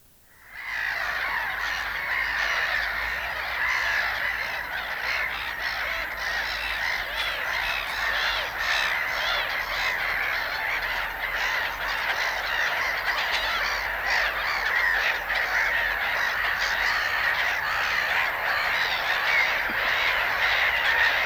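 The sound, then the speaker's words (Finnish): Black-headed gulls call in a dense, continuous chorus of harsh squawks and cries that overlap without pause and hold at a steady, loud level throughout. “Naurulokki.”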